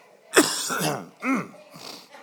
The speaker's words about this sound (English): I wasn't coughing at all sitting back there. Not one time.